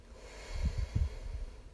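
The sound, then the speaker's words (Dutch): A deep breath in and out, heard as a few soft, low puffs of air, faint and unhurried, with no talk over it. “Adem eens diep in en uit.”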